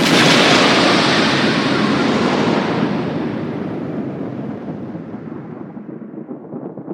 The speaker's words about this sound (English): If you say Banksy 3 times in a row, then he explodes.